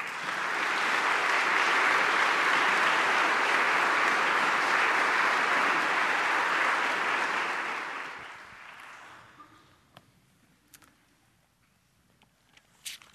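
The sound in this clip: A church audience at Cottage Church applauds to welcome a guest speaker: dense, steady clapping for about eight seconds, then fading away, followed by a few faint knocks and rustles.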